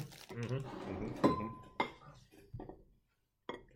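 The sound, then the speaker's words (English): A knife clinks and scrapes as it cuts a Mars chocolate bar in half, with a few sharp metallic taps against a hard surface. Low voices are heard in the background. “All right, Mars first? Yeah, Mars first. Just looking at that cross, so we've cut it in half here.”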